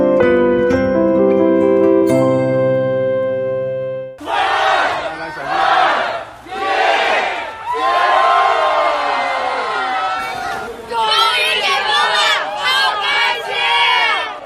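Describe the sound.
A crowd cheers as lockdown is lifted at midnight in a residential compound in Wangjing, Chaoyang District, Beijing. A few seconds of music give way to loud, surging waves of shouting and whooping voices.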